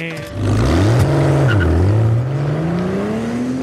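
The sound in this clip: A car drives off fast in the film Sexy Beast, its engine revving loudly, pitch climbing, dipping briefly, then rising steadily as it accelerates away.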